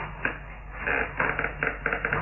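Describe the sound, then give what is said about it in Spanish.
A key scrapes and clicks in a rusty door lock, with a few sharp metallic clicks and rattles over a muffled, band-limited background. “Utilizando las llaves de Jorvik, Amadé introdujo una en la mohosa cerradura de la puerta y...”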